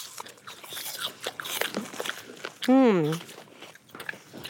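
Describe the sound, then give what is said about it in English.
Crunchy bites into a Pink Lady apple during an apple tasting, a few sharp crisp snaps amid lively talk, with a short sung-out vocal sound after them. “That apple was a Pink Lady apple. Let's do our third apple. One, two, three, bite.”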